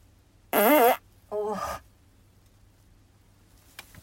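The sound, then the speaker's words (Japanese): Two farts: the first loud and pitched with a wobbling tone, the second shorter and raspier, followed by quiet and a faint click. “おならが出そうなので出していこうと思います。”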